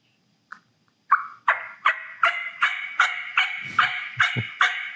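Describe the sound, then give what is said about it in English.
Raspy hen turkey yelps made on a latex mouth call: about ten rough, nasal notes come in a steady, even rhythm. Each note starts sharply and rings loud, with no talking over them. “So I just keep two calls in my mouth, and I'm situated. But here's a raspy hen.”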